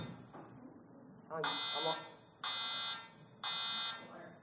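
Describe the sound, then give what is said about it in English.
A fire alarm goes off with three loud, shrill, evenly spaced beeps of about half a second each, following a stretch of quieter sound where a voice is briefly heard. “fire alarm? Sorry.”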